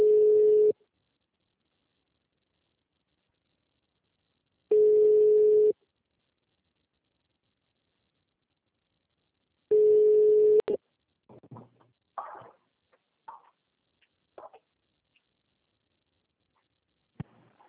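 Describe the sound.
Ringing tone of an outgoing telephone call: three long, steady tone bursts about a second each, spaced by roughly four seconds of silence, then a click and a few faint, brief sounds.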